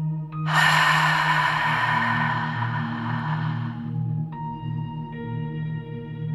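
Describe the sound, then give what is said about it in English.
A deep breath taken in through the nose and pushed out through a narrowed throat during a guided breathing exercise makes a long, loud, breathy rush of air that slowly fades, over a steady sustained humming tone. “Take a big, deep breath in through your nose. Narrow the back of your throat and push it out.”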